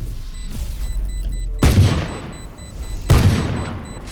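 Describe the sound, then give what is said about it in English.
Gunshots in a video game: two heavy, booming blasts a second and a half apart, each decaying into a rumbling tail, with thin high electronic beeps repeating in the background. “I just saw that guy shoot. Ben, was that you, Ben?”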